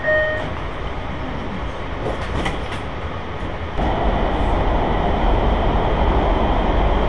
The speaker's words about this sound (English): stand clear. The doors are closing.